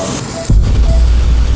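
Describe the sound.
Water flushing during surgery on calcified blood vessels and a large vein, heard as a loud, steady rushing hiss with a low rumble. It starts abruptly about half a second in and continues without a break.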